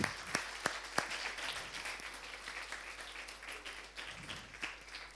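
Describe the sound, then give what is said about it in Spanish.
Applause from a group during a Spanish-language Bible lesson on the armor of God, with scattered claps at a moderate, fairly steady level and a few sharper claps standing out along the way. “un aplauso para todos.”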